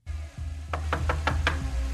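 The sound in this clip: Knocking on a door: five sharp, evenly spaced knocks in a steady rhythm, heard over a low, constant hum.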